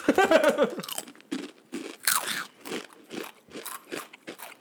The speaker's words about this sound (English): So we'll start with guacamole. We get to eat. We get to hear us eat again.